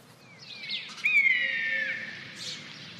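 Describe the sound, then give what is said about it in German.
Birdsong in a forest on a mild spring morning: a few faint chirps and one longer, clear whistled phrase over a soft background hush. “Es ist ein milder Frühlingsmorgen im Wald.”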